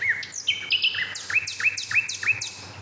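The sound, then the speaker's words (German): A nightingale singing: a run of clear, bright whistled notes repeated in a quick, even rhythm, each note a short slurred phrase, loud and alone with no voices. “Ja, herzlich willkommen zum dritten Nachtigall-Spektakel.”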